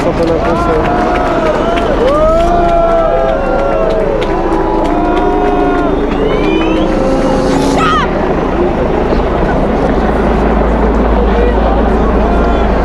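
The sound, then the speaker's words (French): Crowd of protesters running at a demonstration in a city square as tear gas is fired: a dense, continuous roar with shouting voices and scattered high calls over it throughout. “Tout le monde se met à courir. Ça, part, ça on tire les lacrymos sur le, l'autre partie de la manif”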